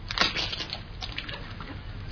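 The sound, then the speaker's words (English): Crunching and squishing as two eggs are crushed: a few brittle cracks near the start, then softer, wet squelches that fade out. “Actually, you have crushed both eggs, you know.”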